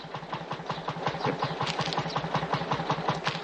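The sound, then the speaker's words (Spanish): A tractor engine chugs at a mid pitch, with a rapid, even knocking pulse that runs throughout at a fairly steady level. “Mira el tractor. Se acerca y apaga el motor.”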